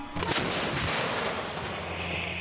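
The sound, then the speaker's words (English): A heavy sci-fi blaster cannon opens fire on a garrison, a loud, dense, booming roar that holds across the whole clip. A sharp burst stands out near the start, and no one talks. “Castian's face drops before he mumbles, "Oh, they took the blaster cannon off the ship." The rancor comes to a lumbering halt just as the weapon winds to life and opens fire on the garrison.”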